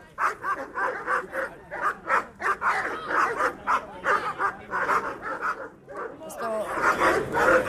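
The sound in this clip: Police dogs bark repeatedly while officers face a man at a football fan gathering in a park, with many sharp, loud barks in quick bursts over steady crowd noise and talk.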